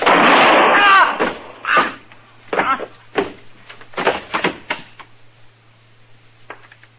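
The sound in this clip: Gunshots ring out in a tense standoff over a drawn gun, a few sharp, cracking bangs of uneven loudness that follow a brief loud opening burst and grow fainter toward the end.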